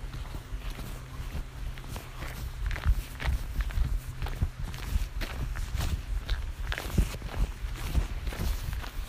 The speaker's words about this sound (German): Ja, ich laufe und laufe und laufe.